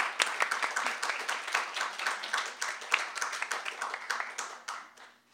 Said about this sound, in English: Please put your hands together and give a warm welcome